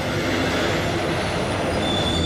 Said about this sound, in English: Oh, big truck.